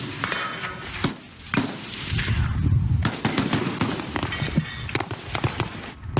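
SVD sniper rifle shots during a shooting drill: many sharp, loud cracks fired at irregular intervals, each with a short echoing tail and no talking.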